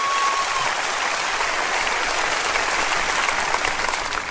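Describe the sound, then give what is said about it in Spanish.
Sustained audience applause at a sermon, a dense, even wash of many hands clapping at steady loudness for several seconds, with no voices on top. “Dele un aplauso a Él, por favor.”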